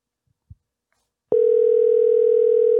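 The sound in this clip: Telephone tone on an outgoing call: after near silence and a soft click, a loud, steady, single-pitched tone begins and continues unbroken to the end.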